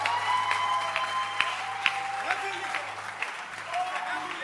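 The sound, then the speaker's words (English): Audience applause as a group claps on cue at a religious gathering: dense, steady clapping that holds fairly even through the whole stretch, with voices mixed in over it. “Your group, clap your hands for Debbie.”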